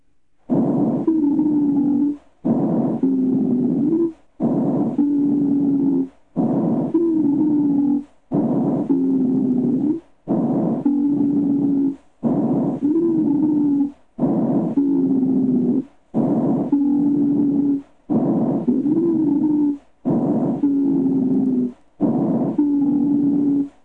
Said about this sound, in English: Sound number 42, low-pitched wheezes.